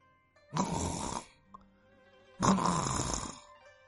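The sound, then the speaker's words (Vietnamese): Soft snoring from a sleeping man: two breathy, rasping snores, each under a second long, separated by a quiet pause. “Tiếng ngáy khẽ vang lên. Nhìn xuống, hắn đã chìm vào giấc ngủ say rồi.”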